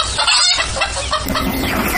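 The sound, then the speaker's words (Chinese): A hen clucking and squawking in agitation as it flees, dense loud calls running over a noisy background for about two seconds. “母鸡四处逃窜，终难躲菜刀。”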